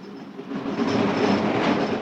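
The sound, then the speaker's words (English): Rumble and rhythmic clatter of a train slowing as it approaches a bridge over a river: steady rail noise, quieter at first, then swelling louder and holding, with no voices. “Slowing down, the train approaches a bridge across a river.”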